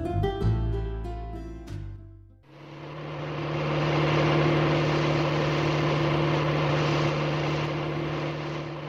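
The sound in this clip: A car engine drives off with a steady, loud droning rumble after a short passage of music, swelling up and then fading slightly as it carries on alone.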